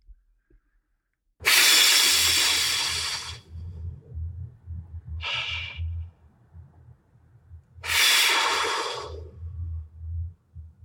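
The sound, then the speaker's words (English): Deep breaths drawn and released on request, heard as a few loud, breathy rushes of air, two long ones with a shorter, fainter one between, over a steady low hum. “I want to see you take a deep breath. I can see it in you, like even as we were setting up, like give me a breath or two if you can.”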